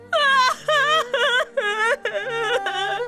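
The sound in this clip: A woman cries and wails in six loud, drawn-out bursts with short gaps between them. Her sobbing voice wavers in pitch.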